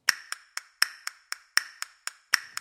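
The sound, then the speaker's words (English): Hand claps in compound time with three subdivisions per big beat, called Tempus Perfectum: about eleven crisp, evenly spaced claps, grouped in threes with the first clap of each group louder. “It's in a compound time with three subdivisions per big beat, what I've heard people in New Orleans call Big Four, or was referred to in the monasteries as Tempus Perfectum, perfect time, which sounds a bit like this.”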